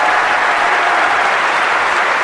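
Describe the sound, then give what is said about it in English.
Audience applause for the guests at a live comedy event: a dense, even wash of many hands clapping at a constant loud level throughout, with no single voice standing out. “So please, can we have a huge round of applause for our guests?”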